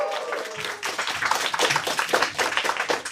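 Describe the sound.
Studio audience applause welcoming guests onto a Chinese comedy talk show: dense, steady clapping that fills the whole stretch, loud and without talk.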